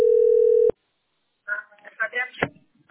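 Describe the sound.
Telephone ringing tone while waiting for a call to connect: one steady, even tone that cuts off abruptly, then a person talking after a short silence.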